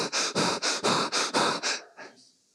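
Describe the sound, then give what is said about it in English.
A voice imitates very heavy breathing: about seven rapid, harsh, evenly spaced breaths in a driving rhythm, then a fainter final breath as the sound trails off into quiet. “as I stepped out of my car, I immediately hear this very heavy breathing, like,”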